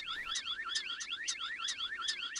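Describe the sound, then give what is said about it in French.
A starling mimics a car alarm near a parking area: rapid, warbling whistled tones swoop up and down in quick repeating cycles with sharp high peaks, fairly loud and continuous throughout, with no voices. “on entend un étourneau qui est capable d'imiter toutes sortes de sons, dont des sons artificiels, et en l'occurrence là c'est une alarme de voiture”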